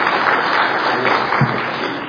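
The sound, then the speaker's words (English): Congregation in a church applauding a guest preacher: a steady, dense wash of clapping that holds at an even level throughout, fading slightly toward the end, with no voices over it. “Thank you for your grace in doing that. I promise you we don't deserve it. And I've never walked in a courtroom and had them applaud for us.”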